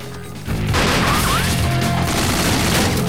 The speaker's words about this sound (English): Gunfire erupts and they both scramble for cover.